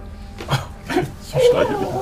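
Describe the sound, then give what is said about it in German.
A person imitating a wolf's growl: a few short, rough, throaty voiced growls in separate bursts, fairly loud and close, the last one longer than the others. “Ich knurre dich an.”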